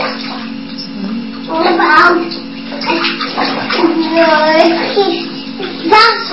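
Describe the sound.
Water runs steadily while something is being washed, making a continuous hissing wash throughout. A child and other voices talk over it.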